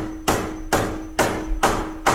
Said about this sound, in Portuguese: Você percebe que até um martelo ele chega mais leve. Eu aceitaria uma martelada na cabeça se fosse com o Vonder.